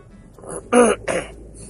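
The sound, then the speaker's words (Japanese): A person clears their throat in two short, rough bursts, fairly quiet and with no other sound. “咳払い申し訳ございません。”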